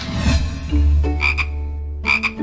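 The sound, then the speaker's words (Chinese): Croaking of a large toad, a kind of amphibian that is easy to catch. It makes a few short, pulsing, buzzy croaks over a low rumbling call, loud and alone with no voices. “这个大普林蟾还是比较好抓的一类两栖动物了。”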